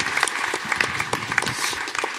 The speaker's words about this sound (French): On peut applaudir Fibre.